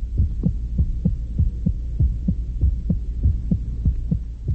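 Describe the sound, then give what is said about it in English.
Human heartbeat, the beating heart of a man, thumps in a steady, even rhythm of many soft low beats over a constant low hum, with no other sound. “That sound you hear is the heart of a man, the beating heart, the metronome of strength and weakness.”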